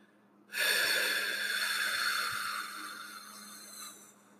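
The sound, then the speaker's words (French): A loud exhalation through the mouth after a held breath, part of a relaxation breathing exercise: brief quiet, then a strong breathy rush that starts abruptly and slowly fades over about three and a half seconds. “Quatrièmement, retenez votre souffle en comptant jusqu'à 7. Cinquièmement, expirez bruyamment par la bouche en comptant jusqu'à 8.”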